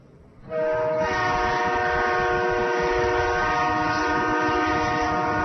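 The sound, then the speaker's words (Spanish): A train's horn sounds in one loud, sustained, steady chord. It starts after a short stretch of low rumbling from the train and holds unbroken to the end. “¿Qué es ese sonido? Parece un tren.”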